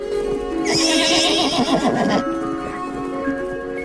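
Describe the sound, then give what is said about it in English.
A horse neighs in one loud, long, quavering whinny that trails off into quieter sound, with steady tones continuing underneath. “Black Beauty neighs and nods his head repeatedly, as if approving.”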